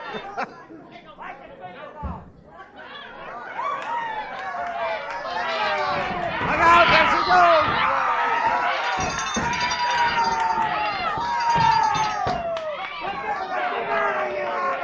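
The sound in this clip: A crowd chatters and cheers at a race finish, many overlapping voices shouting and calling out, quieter at first and then building to a loud, sustained roar.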